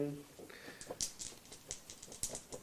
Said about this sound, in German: Ja, ich würfel auf meinen Language Magic Skill.